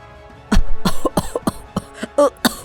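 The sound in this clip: An old man coughs up blood clots in many rough, hacking bursts. The bursts come in an uneven rhythm, with louder fits at the start and sharper short coughs toward the end. There is no talk.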